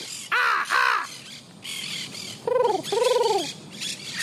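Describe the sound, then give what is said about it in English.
Domestic parrots squawking: four harsh, nasal calls in two pairs, each call arching up and down in pitch, loud above a busy background of other bird chatter. “you see the parrots? Ah! Hear them? Ooh. They're letting everybody know.”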